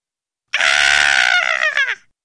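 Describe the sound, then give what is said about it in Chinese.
A single loud, high-pitched scream rings out from a living room, held for about a second and a half with a wavering tone before tapering and dropping off, heard alone. “客厅传来尼可的尖叫声，波比和夏绿蒂被惊醒，飞快地跑了过来。”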